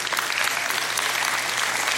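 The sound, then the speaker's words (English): Audience applause for a daughter's tenth birthday, dense continuous clapping at an even, loud level throughout. “You don't have to clap for her. That's really for me and my wife.”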